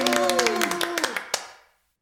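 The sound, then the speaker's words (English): Hands clap in a quick run of sharp strikes during a children's numbers song, heard alongside a held vocal note that slides downward before everything fades to silence. “Clap your hands and say woo!”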